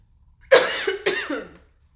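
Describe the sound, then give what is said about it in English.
Two harsh, chesty coughs in quick succession from one person, loud and abrupt, each bursting out and fading within about half a second, then quiet. “I wasn't coughing like for a while, but I think it's because I'm talking so much”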